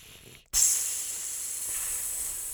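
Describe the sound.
A hissing sound effect starts abruptly after a brief near-silent moment. It continues as a steady, bright, airy hiss at an even level to the end.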